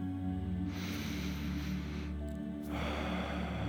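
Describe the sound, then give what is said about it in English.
A slow, deep breath drawn in: a soft, airy hiss that swells and holds for about a second before fading, over a low steady hum. “if you can close your eyes right now and take a breath in”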